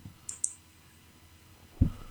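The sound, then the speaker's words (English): Two quick, sharp computer mouse clicks sound close together, followed a moment later by a single low thud. “let me click on her.”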